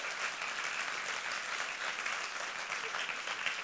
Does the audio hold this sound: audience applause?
yes